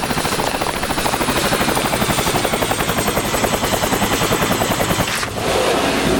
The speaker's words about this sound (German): Ich glaube, ich höre einen Helikopter. Tatsächlich, da hinten.